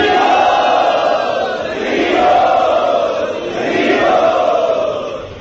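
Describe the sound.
An audience at a religious gathering raises a sustained, loud cheer of many voices to welcome a visiting swami. The sound swells and eases in a few waves.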